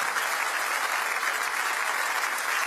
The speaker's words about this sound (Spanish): Dele fuerte ese aplauso a Él.